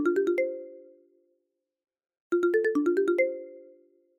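A FaceTime video call rings with two bursts of quick, bright chiming tones separated by a pause; the second burst is longer. No talk accompanies the ringing.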